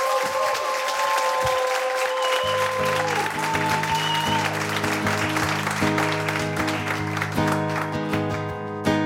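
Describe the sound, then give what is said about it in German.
Audience applause at an intimate lounge concert for a solo singer with a guitar. Dense, steady clapping runs throughout, and sustained musical notes join after a couple of seconds. “Bitte nochmal einen kräftigen Beifall”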